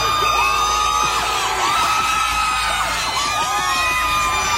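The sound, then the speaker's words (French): Thunder basketball fans cheer at night as their players return from San Antonio after game 6: loud, sustained crowd noise full of whoops, yells and high shouts. “Il suffit d'écouter comment les joueurs du Thunder ont été accueillis en pleine nuit à leur retour de San Antonio après le match 6.”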